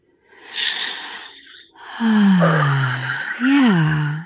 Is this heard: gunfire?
no